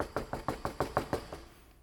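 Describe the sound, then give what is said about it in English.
Urgent emergency knocking on a door comes as a fast, even run of about eight sharp raps. The knocks are fairly faint and fade out at the end. “louder, emergency sort of a knock”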